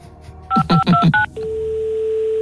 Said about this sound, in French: On va prendre un joker, on va appeler le directeur général du Toulouse Football Club.